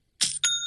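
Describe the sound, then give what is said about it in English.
An online store's sale notification sounds as a bright two-strike ding. A short first chime is quickly followed by a second that rings on with a clear, sustained tone. “You got to love that sound. It's the sound of another sale being made on Shopify.”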